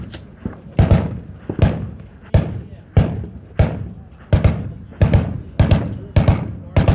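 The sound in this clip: Gunshots crack at a shooting range, many sharp, loud reports in a fairly steady rhythm, each with a short fading tail.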